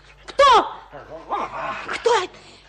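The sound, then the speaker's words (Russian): A dog gives a few excited, high whining yelps, its pitch bending downward in each short burst, separated by brief quieter gaps. “Ой, Динго! Тихо! Динго! Динго! Собачка моя!”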